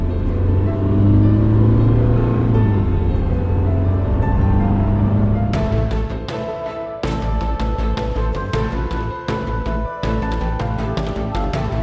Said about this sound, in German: Gib Gas